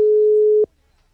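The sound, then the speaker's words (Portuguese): A telephone ringback tone on an unanswered call: one steady, moderately low electronic beep lasting just over half a second, then abrupt silence. “Vou ligar pro Davi.”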